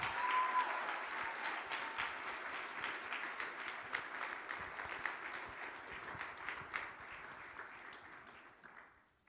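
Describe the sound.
An audience at an MLK chapel service applauds to welcome a newly ordained reverend to speak. The clapping is dense and steady and lasts about nine seconds, then tapers off at the end.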